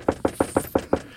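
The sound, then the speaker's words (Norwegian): Six quick, evenly spaced knuckle knocks reenact rapping on the window of a 6.3-litre, 500-horsepower car; the sharp, hollow raps form a steady rhythm with nothing else heard. “Banket på ruta sånn her.”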